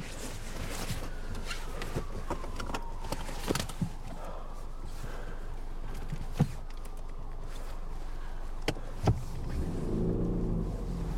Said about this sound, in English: Budge drives away.